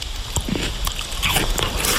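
Biting into a tart, unripe Lidice pear: wet, crisp bites and moist chewing, with a few sharper crunches over a continuous juicy texture.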